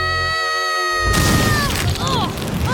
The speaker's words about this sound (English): Barbecue! Everyone jump! Kids, are you ready for school? What? Barbecue explode!